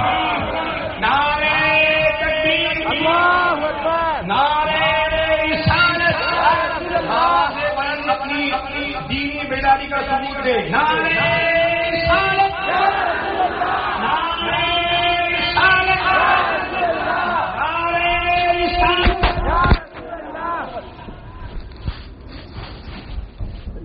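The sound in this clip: Crowd chanting the takbir slogan, loud massed shouts rising in repeated bursts over a long stretch, with a sudden sharp surge near the end before the voices thin out.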